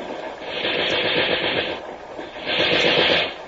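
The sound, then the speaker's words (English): Two short bursts of machine-gun fire, aimed at a gun crew in a forward post below a wall. Each burst is a dense, loud rattle lasting about a second, with a brief pause between them and no voices. “Just a couple of short bursts. When another gun is shooting, cover up our sound.”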